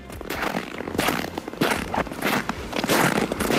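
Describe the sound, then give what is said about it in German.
Footsteps crunch through snow in a steady rhythm of many gritty, crackling crunches, fairly quiet and with no voices. “Na, spüren Sie schon den Schnee unter den Fußsohlen?”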